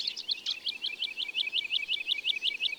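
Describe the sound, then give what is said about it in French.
A woodlark sings in flight over meadows, a long run of sweet, high, evenly spaced notes repeated in a steady, lilting rhythm, clear and alone. “il y a une alouette Lulu qui chante en volant au-dessus des prés.”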